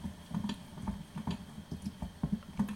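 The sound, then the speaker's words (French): Water bubbling in a pan beneath a vessel of melting chocolate, irregular soft pops and blips recurring steadily at a moderate level. “Quand vous entendez que ça commence à bien bouillir en dessous, il faut baisser le feu pour avoir juste un petit bouillon qui permette de fondre le chocolat doucement sans le cuire.”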